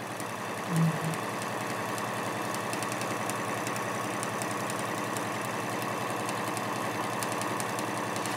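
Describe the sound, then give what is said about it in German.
A sewing machine stitching fabric with a wide presser foot, securing a seam on a cushion cover. After a brief thump at the start, it gives a steady mechanical whir with rapid, even ticking that runs unbroken at constant speed. “Auch das nähe ich jetzt wieder einmal fest.”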